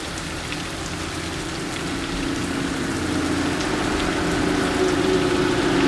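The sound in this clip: Rain drums on a metal roof on a nasty night, a dense, steady hiss and patter that holds evenly throughout and swells slightly toward the end, with no voices.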